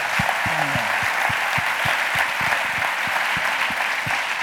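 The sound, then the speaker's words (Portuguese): Audience applause at an event, dense, steady clapping that stays loud and continuous from start to finish without a break. “salve de palmas para o Alvin”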